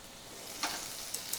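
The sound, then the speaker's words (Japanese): Butter sizzles in a pan over a lit burner with a little oil added as it begins to melt. A faint, steady hiss runs throughout, with three small crackling pops standing out. “バターを入れてください、 はい、 入れますよ。 あ最初にバターなんですね。”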